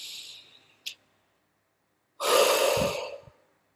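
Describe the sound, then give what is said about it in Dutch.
A deep inhalation: one loud, breathy rush of air lasting about a second, preceded by softer breath noise and a brief click, then a pause of silence. “Kun je adem diep in?”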